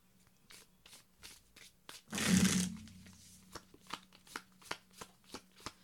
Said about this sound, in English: Okay, so now it's time to pull a card to represent our relationship with the deck.